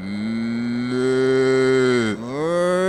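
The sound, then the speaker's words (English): A cow lets out one long, loud, low moo that holds steady for nearly the whole span, breaks briefly near the end and then resumes. “You know what we're talking about now? Yep. Cow. Cow.”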